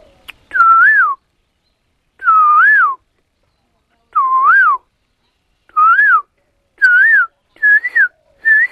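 A person whistles an imitation of the song of a small, all-black songbird heard in the morning: seven clear, separate phrases, each a short rising-and-falling warble, the later ones coming faster and sitting slightly higher, with no talk.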